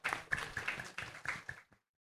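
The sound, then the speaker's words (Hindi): An audience at a gathering claps in applause for two people who earned full exam marks: faint, dense clapping that lasts under two seconds and then stops abruptly into silence. “सब ताली बजाएंगे।”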